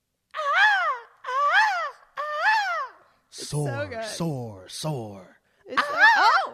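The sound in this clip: A voice imitates a hawk's call with three similar shrill cries that rise and fall, then a rougher run of lower, breaking calls and a final loud cry.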